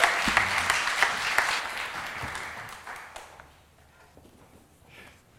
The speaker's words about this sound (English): So please give him a big hand and welcome from here in Hope, Des Moines.